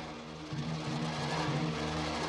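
A truck's engine rumbles steadily as it drives through large double gates into a square prison courtyard. The low, continuous drone swells slightly in loudness after the first half second and then holds even throughout.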